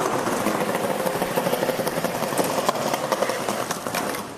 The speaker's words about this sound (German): Skateboard fährt durch die Höchststraße. Natürlich nicht das Skateboard alleine, sondern mit einem Skateboardfahrer.